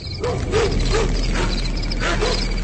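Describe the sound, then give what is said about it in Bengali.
Dogs bark in the distance late at night, a few short yelping barks repeating at an irregular pace over a steady low background hum. “দূরে দু একটা কুকুর ডেকে উঠল।”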